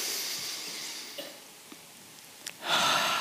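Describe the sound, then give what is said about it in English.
An audience breathes in deeply through their noses and then out, a soft, broad rush of air that fades into a quiet pause before a second, louder wave of breath swells at the end. “just take a deep breath for me through your nose. And then breathe out. One more time for me.”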